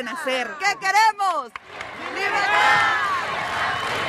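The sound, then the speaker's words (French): Crowd chanting "Liberté" in front of the main stage at a concert for Venezuela near the border. A single voice speaks briefly, then a loud, sustained mass of crowd voices rises and holds. “Liberté, scande le public devant la grande scène du Venezuela Head Live”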